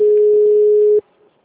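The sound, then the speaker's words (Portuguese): A telephone ringing in a home sounds as a single steady electronic tone of about one second, then cuts off abruptly, leaving only faint background noise. “atende esse telefone, pelo amor de Deus.”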